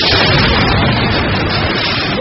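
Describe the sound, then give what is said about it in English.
Artillery shells explode during a heavy army bombardment of the Daraya suburb in Syria, making a loud, harsh, continuous roar with no separate blasts standing out. “A terrified activist stands his ground with shells exploding around him, documenting the bombardment of Daraya.”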